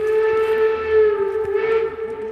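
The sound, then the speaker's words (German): Steam whistle of a historic train during a weekend of vintage rail runs in Nossen, Saxony, sounding one loud, sustained, steady tone with rich overtones that wavers slightly and lasts the whole time. “Es fährt ein Zug, es fährt ein Zug, es fährt ein Zug.”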